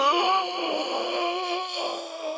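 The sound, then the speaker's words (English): An eerie, manipulated moaning voice for a scary character, made using inward breath: a sustained, wavering, breathy drone that holds steady in loudness throughout, with no words. “We started manipulating his voice. We started using inward breath”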